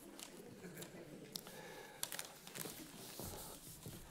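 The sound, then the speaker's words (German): Paper crinkling and tearing as an envelope holding an Easter gift is ripped open: a few sharp rustling tears and crackles scattered over a soft, faint handling noise. “Nimm dir mal den Umschlag. Genau, kannst einfach abnehmen und reiß ihn ruhig auf. Geschenke aufreißen macht mehr Spaß.”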